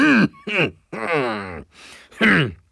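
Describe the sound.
A man clears his throat while sitting in a Lincoln Aviator, giving a series of rough, voiced, throaty bursts separated by short pauses. The bursts vary in length.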